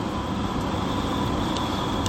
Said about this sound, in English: Thank fuck I've got the air conditioning.